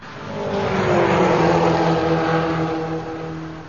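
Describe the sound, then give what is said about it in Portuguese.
A car speeding along a street in high-speed oncoming traffic: a broad engine roar swells to a peak and fades again, its pitch sliding downward as it rushes past. “Um veículo vindo no sentido contrário, em alta velocidade, colhe a moça que caminhava rente à guia da calçada.”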